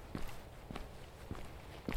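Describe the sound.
Footsteps walk along a path running atop a knocked-down dry stone wall with thick grass on either side. Four faint, evenly spaced steps fall at a steady walking pace.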